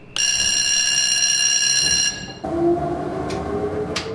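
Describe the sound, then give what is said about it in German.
A small blue four-person cable car gondola running between Dallenwil and Wiesenberg: a steady, high, ringing mechanical whine for about two seconds, then a lower rumbling run with a couple of brief squeaks. “Eine kleine blaue Gondel fährt täglich von Dallenwil auf den Wiesenberg.”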